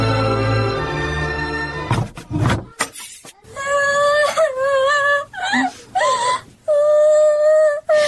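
A girl crying in a radio drama, drawn-out, wavering wails and sobs in several loud bursts with short breaks between them.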